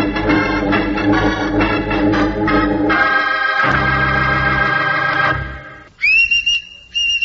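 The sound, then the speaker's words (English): Whistling call of a woodchuck summoning its young to food: a run of shrill, tonal whistle blasts, then a brief pause and two short, high whistles at the end. “Hear that, Charlie? That's the signal of one of the best food providers in the forest. That's the noise a woodchuck makes when he's got something specially good tasting for his youngsters to eat. It's the signal he uses to call them to breakfast.”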